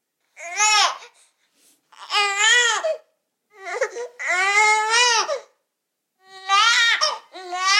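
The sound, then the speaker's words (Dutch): A newborn baby gives several short, wailing 'neh' cries, the kind linked to the sucking reflex. The cries are high and harmonic, come in separate bursts with brief pauses between them, and sound alone without talk. “We gaan beginnen met een huiltje. Ja, dit is dus de ne. En die heeft te maken met het zuigreflex. Ja, kun je hem nog eens laten horen?”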